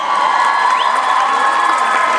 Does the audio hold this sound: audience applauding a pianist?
yes